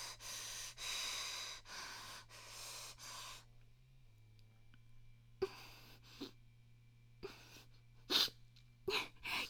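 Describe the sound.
Sniffling from a runny nose: a few short, faint, breathy sniffs at irregular intervals over a low steady hum, after a stretch of soft, rushing breath noise.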